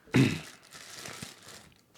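Wrapping on a double-wrapped package crinkles and tears as it is opened, with one loud crackling rip at the start, then softer rustling and small crunches.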